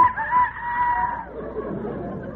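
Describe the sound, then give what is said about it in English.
A rooster crows in the morning: one sustained, strong, tonal call that lasts about a second, followed by a softer, rougher patch of murmuring noise. “No, that's the rooster. It's morning.”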